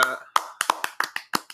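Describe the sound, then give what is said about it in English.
Brief hand clapping as a round of applause: several quick, sharp claps in an uneven rhythm over about a second and a half, loud, with no voices. “So, round of applause.”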